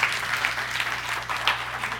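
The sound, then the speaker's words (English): Audience applause at a church anniversary service, a dense, steady wash of many hands clapping at even loudness for about two seconds, with no voices over it. “So CCF LA, once again, congratulations and happy anniversary to all of you. Let's give God a big hand once again.”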